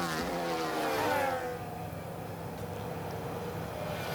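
Formula 1 race cars on a circuit nearing a hairpin before the straight, running close together: a high engine whine slides down in pitch, then settles into a steady, broad roar that holds to the end.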